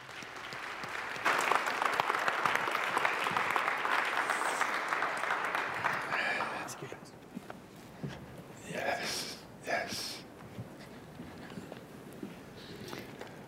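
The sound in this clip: An audience applauds to welcome two guest speakers. The clapping is steady and dense for about six seconds, then fades into quieter sounds with some talk.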